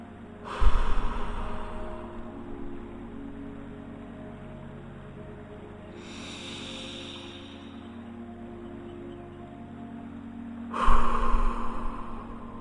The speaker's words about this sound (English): with four deep breaths, beginning now